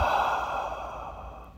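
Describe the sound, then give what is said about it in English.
A single soft, breathy exhale through the mouth during a slow, calm breathing exercise. It fades gradually and nothing else is heard. “Gently inhale through your nose. And exhale through your mouth.”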